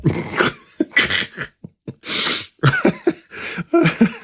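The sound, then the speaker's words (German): Harsh coughing from someone who has choked on something: a rapid series of loud, raspy bursts separated by brief gaps and breathy gasps. “Ich habe mich verschluckt.”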